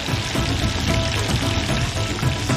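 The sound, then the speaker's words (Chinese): Duck pieces are stir-fried over high heat in hot oil with scallion, ginger and fresh chili, producing a loud, continuous crackling sizzle that stays steady throughout, with no voices. “下入葱、姜、鲜海椒爆香，加入鸭块翻炒均匀”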